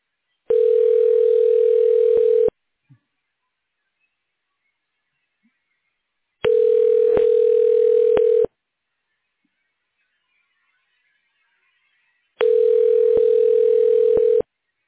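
Telephone line tone during a call transfer to a manager's extension: three steady, mid-pitched tones of about two seconds each, separated by silent gaps, with a few faint clicks.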